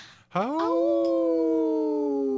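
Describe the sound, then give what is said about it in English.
A wolf howls, one of Minnesota's wild wolves: a single loud, clear call that sweeps up quickly at the start, then holds a long, steady, harmonic-rich tone alone. “Hey, this is a howling one, isn't it? Yes. In this portion of the show, we'd like to bring awareness to our wolf population here in Minnesota.”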